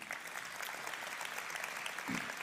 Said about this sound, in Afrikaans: Kerkfamilie, kan ek jou vra asseblief, help my terwyl ek vir daai kamera kyk om ons aanlyn gehoor met 'n handeklap baie welkom te sê.